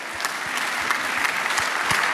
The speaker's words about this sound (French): Et applaudissements, double applaudissement pour Adrien qui a joué le jeu, mesdames et messieurs.